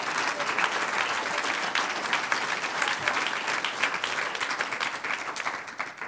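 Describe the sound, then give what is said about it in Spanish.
Congregation applauding in a church service: a sustained, dense wash of clapping with no breaks, steady for most of its length and easing slightly near the end. “Y un aplauso al Señor.”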